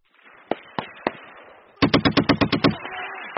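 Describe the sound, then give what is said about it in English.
Heavy machine guns fired by paratroopers on a snowy firing range, aimed at a mock bunker: three sharp, separate bangs, then a rapid, loud burst of booming shots in even succession, with a low rumble trailing after. “On a ridge overlooking a snowy field, U.S. paratroopers fire heavy machine guns at a make-believe enemy bunker on the tree line, providing their comrades below with covering fire.”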